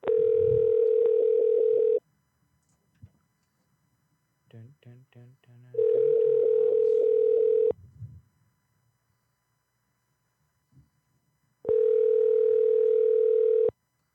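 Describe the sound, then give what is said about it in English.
A telephone line tone sounds while a call is placed: three loud, steady, even-pitched tones of about two seconds each, separated by long gaps with brief bits of talk between them. “we're going to call your person next”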